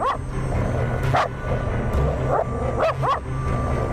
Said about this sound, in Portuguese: Rico Suave, por que você tá latindo, hein? Cachorro danado.